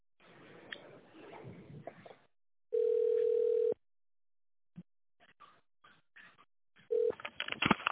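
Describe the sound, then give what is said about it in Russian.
Touch-tone dialing of an extension number on a company phone line: a sustained steady beep, then a few scattered clicks and a brief second tone, ending in noisy crackle. “Наберите внутренний номер в тональном режиме”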